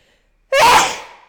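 One loud, sudden sneeze bursts out of silence with a sharp onset and a breathy tail that fades within about a second.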